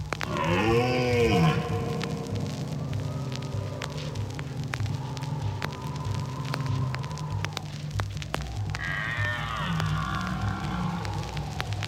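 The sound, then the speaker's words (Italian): Deep, drawn-out bellowing calls of a deer in the woods, harmonic groans that sweep up and down in pitch, heard alone and fairly loud over a steady low drone. “E questo è il richiamo del cervo. Ce n'è ancora qualcuno nei boschi della Mesola e lungo il confine austriaco.”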